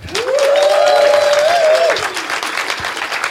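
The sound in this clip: Audience applause welcoming a guest speaker at a lecture in Tokyo: steady, dense clapping with a sustained whistle ringing over it for about two seconds, after which the clapping carries on more softly.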